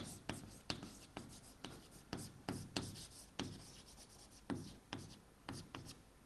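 Writing on a board during a lecture on computer architecture: many short, scratchy strokes in a fairly steady rhythm, faint and with no voices.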